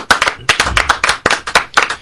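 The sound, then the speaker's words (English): Scattered hand claps from a small audience applauding the winner of a beer-brewing contest. Many sharp, irregular claps come in loud bursts with short gaps between them. “One more round of applause for our winner.”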